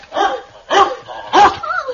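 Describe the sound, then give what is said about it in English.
A fierce dog barks three times in quick, evenly spaced bursts, followed by a softer, higher trailing yelp. “what a ferocious dog”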